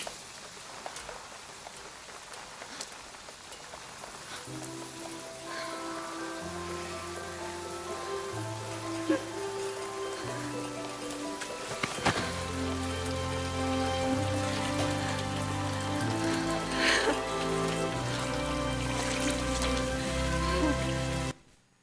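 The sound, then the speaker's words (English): Rain falling in a steady hiss of drops, with sustained musical notes joining after a few seconds and playing over it until both stop abruptly at the end. “Sorry about the rain.”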